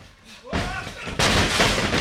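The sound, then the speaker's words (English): Heavy booming impacts of wrestlers body-slamming each other onto the ring mat at a brewery in Austin: two loud thuds, each followed by a sustained roar of noise. “There are two wrestlers in a ring, and they're taking turns body slamming each other into the mat.”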